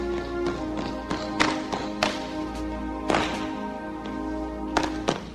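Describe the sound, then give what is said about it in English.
Two women cadets in an unarmed high school drill competition slap their bodies and march in unison, making many sharp hand slaps and dull foot thuds in an uneven rhythm, with a few louder accented hits. “Without rifles, two women cadets wear white belts over their dark blue jackets. In unison, they slap their bodies and march.”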